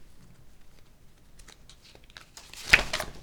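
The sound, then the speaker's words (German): A deck of playing cards dropped during a card trick: faint scattered rustling, then one sudden loud slap and fluttering burst as the cards hit and spill, quickly fading. “Ich habe alle Karten fallen lassen.”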